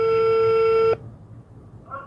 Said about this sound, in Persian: پردیس ربیعی با مدیر مدرسه هم تماس گرفته تا جزئیات رو از زبان اون بشنوه.